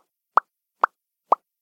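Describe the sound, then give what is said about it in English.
Three short, dry lip pops made by a person, evenly spaced and crisp against silence, like small hollow plops. “It was just me popping my lips.”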